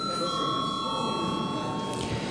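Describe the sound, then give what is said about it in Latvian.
Bell rung in a parliament chamber before a vote: a continuous, bright electric ringing that holds steady and unbroken throughout. “Aicinu balsot. Lūdzu zvanu.”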